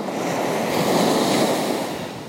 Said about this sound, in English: the calm and non-relevance of the ocean, the constant wave crashing,